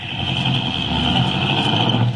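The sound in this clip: Steady engine drone of a car driving slowly through a park, a constant low rumble with no voices.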